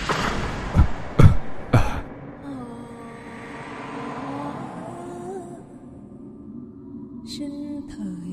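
Coughing, three sharp harsh coughs in quick succession at the start, followed by a low continuous rumbling background with no further coughs.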